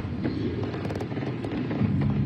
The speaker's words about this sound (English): Gunfire. Screams.